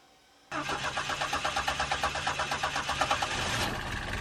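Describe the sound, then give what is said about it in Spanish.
A car engine starts: after a quiet moment it abruptly catches, and a rapid, rhythmic pulsing settles into a steady, loud running hum at idle, with no voices. “Arranca el motor, que voy a ver la salida de gases por el tubo de escape.”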